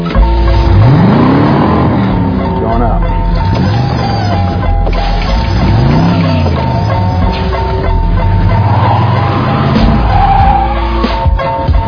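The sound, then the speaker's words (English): A car engine revs in a few distinct swells. Each rises and falls in pitch over a constant low rumble of the running motor. “This car is not from the motor pool.”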